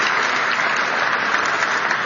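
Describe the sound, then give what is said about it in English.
Audience applause for a securities regulator announcing the rescission of a climate rule: a dense, even wash of many hands clapping, loud and unbroken throughout. “It's unusual for a regulator to get applause.”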